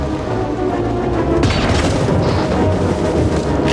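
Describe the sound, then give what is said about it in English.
Gunshots fired at a man running out a front door, with a police car driving by: loud, dense booming throughout, with a sharp, heavy blast about midway that thickens the continuous rumble. “He shoots again as Carl drives by.”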